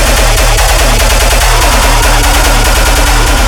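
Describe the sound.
Gunshots fired into the air in a long, rapid, evenly spaced string of loud, sharp cracks that run without a break from start to finish.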